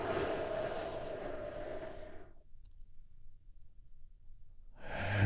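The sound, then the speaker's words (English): A deep breath in and release during a guided relaxation exercise: a soft, airy rush lasting about two seconds, then quiet, with another breath starting at the end. “taking a big, deep healing breath with me right now. Here we go.”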